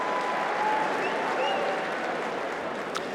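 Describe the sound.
Crowd applause on Centre Court at the Championships, welcoming two tennis players onto court before a match; dense, steady clapping runs unbroken throughout and eases slightly at the end.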